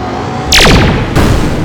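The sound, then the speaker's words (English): A giant humanoid robot fires two loud green laser blasts. The first is a sharp zap with a falling whistling sweep, and a second harsh burst follows moments later over a low rumbling bed. “The dome of the Lion Thunderzord glows and fires a green laser that blasts the Blue Shogun Zord. The humanoid robot dips as Adam fires again.”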